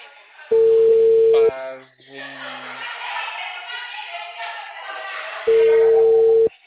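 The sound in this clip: A telephone ringback tone plays while a call waits to connect. Two long, steady, even beeps are heard, with a person talking in the gap between them.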